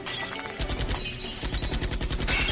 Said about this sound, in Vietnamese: Theo tiếng súng bất ngờ vang lên, kính xe hơi cũng vỡ vụn theo.